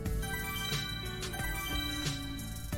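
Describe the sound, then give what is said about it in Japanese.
An electronic email arrival notification tone rings out as sustained, layered synthetic tones with a few soft accents, with no talking. “メールが届きました。”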